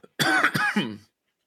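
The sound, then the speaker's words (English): A person coughs and clears their throat right against a microphone, a short harsh burst of a few rasping, gravelly pulses lasting under a second, followed by silence. “sorry, I'm trying not to cough into the mic.”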